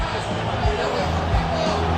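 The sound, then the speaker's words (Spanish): Deportivo de La Coruña fans fill the stadium with a dense, steady roar of cheering at the end of their match against Valladolid, loud and continuous throughout. “Por cierto, ha saltado el campo Escudero y final del partido. Final, escuchamos al público gallego.”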